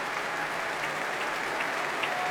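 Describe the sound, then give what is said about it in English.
Concert audience applauding after a piano performance: a dense, even wash of clapping that holds steady and fairly loud for the whole stretch, with no talk over it. “They're still cheering.”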